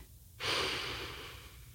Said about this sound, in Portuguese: Tapar as orelhas com os polegares e os olhos com o restante dos dedos. Aí você vai inspirar bem profundamente.